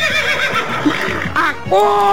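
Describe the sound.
A horse neighing, with a loud, bright, quavering whinny that breaks out near the end. It follows a stretch of mixed, lower, rougher sounds.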